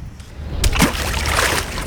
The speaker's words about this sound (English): That was the sound of me throwing a stone into the Mississippi River.